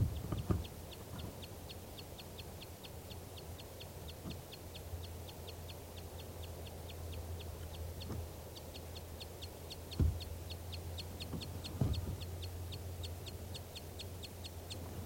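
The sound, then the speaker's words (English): A female bird, flushed from her nest and perched in nearby trees, gives many short, high 'toop' alarm calls in a steady, rapid series, fairly faint throughout. “These are the toops or alarm calls of a female.”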